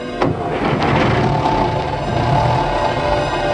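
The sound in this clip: A chauffeur-driven car's engine idling before it drives off: a loud, steady mid-pitched hum, with a brief sharper burst near the start, then running evenly throughout.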